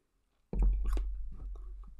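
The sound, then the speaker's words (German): A person chewing and eating food, with soft crunchy bites and wet mouth sounds that start abruptly after a short silence and continue quietly on their own. “ich, esse, ich esse heute Essen.”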